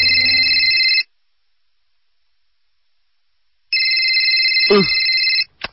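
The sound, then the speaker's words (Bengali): A telephone rings with an incoming call in two loud bursts of steady electronic ringing, separated by a silent pause, and then gives a short final blip. “এ সময় আবার কে phone দিচ্ছে?”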